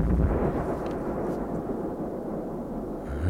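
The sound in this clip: Bomb explosion during an air raid: a loud, deep, sustained rumbling roar with no sharp onset. It holds steady for the whole stretch, dips slightly midway and swells again at the end.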